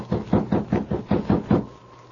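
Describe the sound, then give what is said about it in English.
Knuckles rap on a cabin door in a quick, evenly spaced series of muffled, dull knocks. They keep a steady beat for about a second and a half, then stop, leaving near silence. “Sergeant Preston, with King at his side, knocked on the door of Paul Hubbard's cabin.”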